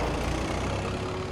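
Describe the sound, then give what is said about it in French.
Car tyres crunch over gravel as a car leaves a house: a steady, rough, grinding crunch over a low engine rumble that holds evenly throughout. “Et donc, elle décide de quitter la maison. On entend le gravier comme ça qui crisse sous les pneus.”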